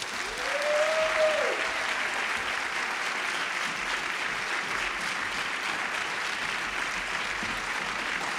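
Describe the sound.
Warm applause welcomes a speaker at a town hall event. The clapping is soft but steady and unbroken for over eight seconds, with a brief vocal sound near the start.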